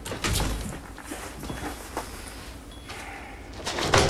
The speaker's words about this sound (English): The outer doors open and John floats out.